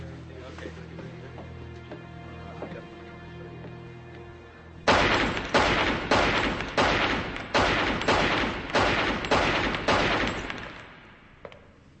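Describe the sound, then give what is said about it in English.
Gunfire from target shooting: a steady, evenly spaced series of many loud, sharp shots begins after a quieter opening and continues to near the end, each crack decaying quickly before the next. “That's fancy shooting.”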